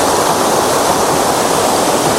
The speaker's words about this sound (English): Okay, so there's lots of little gullies and trickles and streams, and there's a pretty big plunge pool down there.